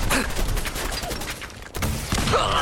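Rapid gunfire from a big gun in a video game, fired at a raider den, comes as a dense stream of sharp, loud shots with a brief dip before the firing resumes.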